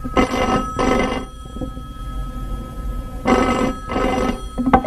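A telephone rings as someone has just arrived home: two bursts of double rings, each pair of loud, bright trilling rings followed by about two seconds of quiet.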